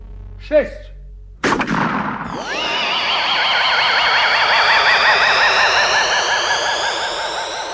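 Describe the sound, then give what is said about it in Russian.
A single loud gunshot bangs, then the bullet ricochets with a long, wavering whine that holds for several seconds. A brief sharp sound comes just before the shot. “О, дьявол! Пуля отскочила.”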